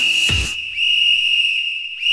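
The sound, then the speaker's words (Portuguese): A referee's whistle: a loud, shrill, steady tone held for most of two seconds with brief breaks, and a short low thump near the start. “Apito árbitro”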